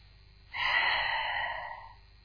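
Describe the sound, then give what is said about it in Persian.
One deep breath, drawn in through the nose and let out through the mouth: a single smooth, airy rush that swells quickly, holds for about a second and a half, then fades out, heard alone without talk. “نفس عمیق. نفس ها رو از بینی میکشین و از دهان خارج میکنین.”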